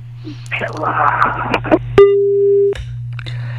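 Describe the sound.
A steady telephone line tone sounds as a caller connects, holding level for under a second after a stretch of talk. A low hum runs underneath throughout, and noise returns once the tone cuts off.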